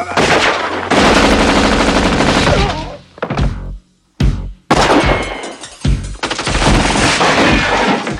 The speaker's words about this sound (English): uses his automatic assault rifle.